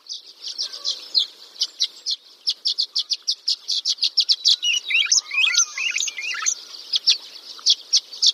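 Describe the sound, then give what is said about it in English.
Violet-green swallow songs and calls: many short, high chirps repeat in a quick, uneven series. A busier warbling twitter breaks in midway before the sharp chirps return, all fairly faint with no voices. “Those were the songs and calls of the violet-green swallow. It's a small, sleek bird found throughout western United States.”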